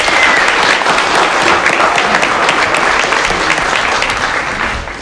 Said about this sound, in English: Let's give them a welcome all the way from California.